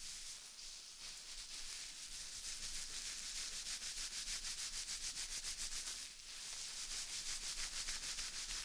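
Hair being shampooed and scrubbed during a shampoo service at a Japanese inn, with fast, even rubbing strokes in a steady rhythm and one short pause partway through.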